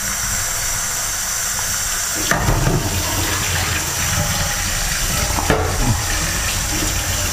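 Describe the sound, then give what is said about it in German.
Water runs steadily during rinsing, a constant loud rushing hiss with a couple of brief, louder splashing surges. No voices are heard. “Ausspülen richtig.”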